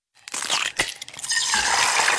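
Eggshells being cracked and crushed for a food scraps bin: a sharp crack, then dense, gritty crunching and crackling that carries on steadily to the end.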